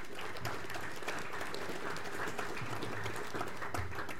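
Audience applause welcomes the Torres Strait Regional Authority chairperson to the stage at an exhibition opening, with soft, steady clapping throughout.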